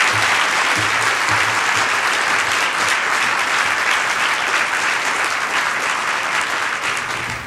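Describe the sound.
An audience at the JCCSF applauds to welcome speakers on stage, with loud, thick, continuous clapping that holds steady throughout and drops away only at the very end.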